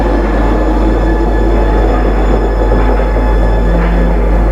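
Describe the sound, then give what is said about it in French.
Metro train riding on its rails, a loud, unbroken rumble of wheels and carriage noise with a faint metallic squeal creeping in now and then, and no voices. “a pris le métro pour y aller”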